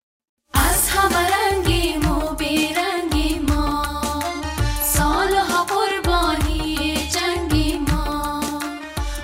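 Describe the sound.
Music by an Afghan group of young women singers, performed on stage in Kabul, bursts in after a brief silence and carries on loud and dense, with a busy rhythmic low end under bright melodic lines.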